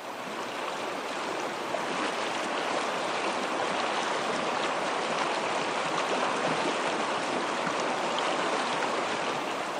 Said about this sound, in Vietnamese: Trước sau đó là hai người đàn ông đang chăm chú nhìn vào màn đêm ở phía trước, đôi tài không ngừng nghỉ để chèo.